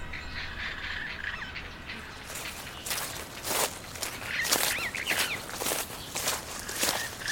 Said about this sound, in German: Und beim Gehen merke ich, das Gras unter mir ist ganz schön trocken.